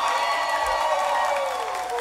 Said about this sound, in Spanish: Un aplauso para Free Comer.